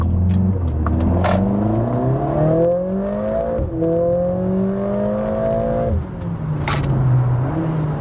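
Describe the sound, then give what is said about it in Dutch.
A Mercedes-AMG CLA 45 S with all-wheel drive accelerates hard. Its engine note climbs through the revs, with a couple of brief pitch drops at gear changes. The loud, continuous roar carries on with no talk. “En daardoor kan eigenlijk iedereen wel op pad met deze AMG CLA 45S.”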